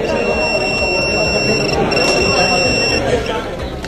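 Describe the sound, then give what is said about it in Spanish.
An electronic-device detector alarm sounds in a university exam hall, giving steady, high, shrill buzzing tones over a loud murmur of crowd chatter. The tones cut off shortly before the end while the chatter continues. “que realizan barridos aleatorios para detectar el uso de dispositivos electrónicos y de transmisión de datos, lo que es copiar basándose en la inteligencia artificial. En caso de que se localice uno, suena esto.”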